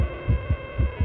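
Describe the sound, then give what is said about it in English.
A racing heartbeat thumps in quick, low, paired beats over a steady background hum, with a few thuds in about a second. “This is what most people's heart rate sounds like when they're getting their taxes done.”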